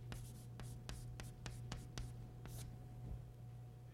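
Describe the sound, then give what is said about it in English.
Writing on a board produces a faint series of short, scratchy strokes spaced in an uneven rhythm, with a low steady hum underneath. “And I don't know even where to write it, but I'll just write it in the middle.”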